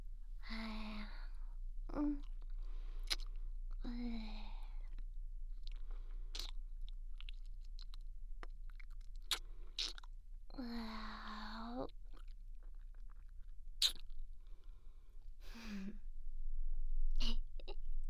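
Wet, crunchy chewing of a lemon cola flavored snack, a few bites and many soft munching sounds, with breathy vocal sounds in between.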